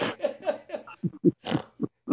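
A pig snorting among piglets: many short, rough, nasal grunts in a quick, uneven rhythm.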